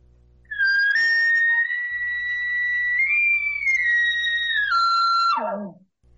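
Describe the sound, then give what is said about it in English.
An elk location bugle blown on an elk call: one long, loud, high whistling tone that steps up in pitch midway, holds, then drops sharply into a low grunting tail. “Absolutely. Location bugle sounds like this.”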